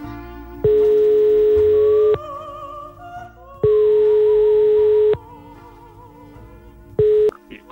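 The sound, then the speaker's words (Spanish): Telephone line tone on an incoming radio call: a steady, mid-pitched tone in two long bursts and a third cut short, over soft background music. “Tenemos ya pinchado una llamada, Alteza. Tenemos ya nuestra primera llamada.”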